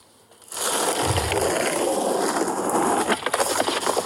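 A skateboard rolling and crashing outdoors on wide stairs coated with a thin, very slippery layer of snow: a steady, rough rolling roar begins abruptly, then a few sharp clattering knocks and scrapes sound toward the end. No voices are heard.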